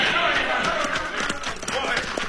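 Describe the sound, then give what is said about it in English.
Horses galloping in a radio western drama: rapid, steady hoofbeats pound throughout under shouting voices. “That Cisco Kid and his partner's riding this way at full gallop.”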